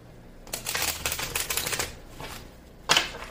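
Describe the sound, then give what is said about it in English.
Tarot cards being split and shuffled: a rapid riffling flutter runs for about a second and a half, then after a short pause a single sharp snap of the deck. “Chamber of the Violet Flame when I split the deck”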